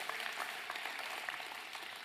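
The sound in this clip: Faint applause from a church audience as the children's group is dismissed: a soft, continuous patter of many hands clapping at a steady level for about two seconds.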